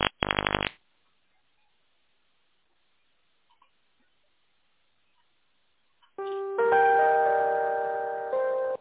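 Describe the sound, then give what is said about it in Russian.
A phone ringing with a bright electronic melody of layered sustained tones that starts after several seconds of near silence, following a short buzzy tonal burst at the very beginning. “Звонок.”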